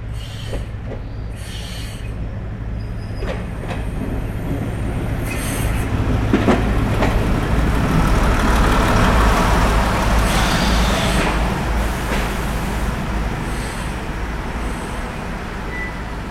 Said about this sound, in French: Il y a une activité intense ce matin à la gare internationale de Canfranc. Si. Ha venido un tren herbicida.